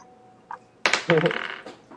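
Dice clattering across a table during a tabletop role-playing game: a short burst of hard, rattling clicks follows a faint earlier tap, then tapers off quickly.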